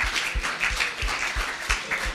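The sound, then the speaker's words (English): Church audience clapping in a steady, even beat, the claps landing at regular intervals over a soft wash of background noise. “let's just clap and just praise Jesus”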